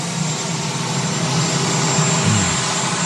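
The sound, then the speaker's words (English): A helicopter's auxiliary power unit runs with a loud, steady roar and a thin, high-pitched whine holding constant on top, with no change in level and no voices. “Yes, the dulcet sounds of the auxiliary power unit on the helicopter.”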